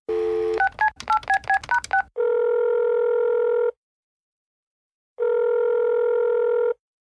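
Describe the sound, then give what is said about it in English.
Touch-tone keypad beeps dial a telephone number as a quick run of short tones after a steady dial tone. Two long, even ringing tones separated by a silent pause follow. “Great, I'll dial the number now.”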